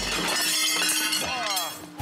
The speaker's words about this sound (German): Ist er kaputt? Kaputt gemacht, den Stein.